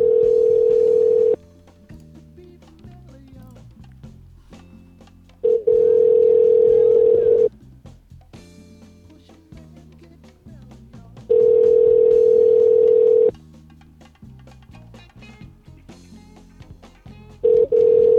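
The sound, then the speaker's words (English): Telephone ringback tone while calling back: three steady tones of about two seconds each, separated by pauses of roughly four seconds, with the start of a fourth tone at the end. “Alright, let's call back the angry Asian guy.”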